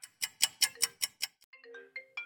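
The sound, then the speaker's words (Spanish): A phone ringtone signals an incoming call at a radio station: seven quick, bright pulses in a steady rhythm, followed by a short run of wavering higher tones. “Ok, ya nos está llamando, le vamos a contestar.”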